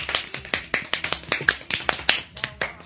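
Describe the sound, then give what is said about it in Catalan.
Canned applause sound effect played on a radio show, heard as a quick run of many sharp, evenly spaced hand claps, crisp and rhythmic rather than a dense crowd roar. “Aplaudiments enllaunats.”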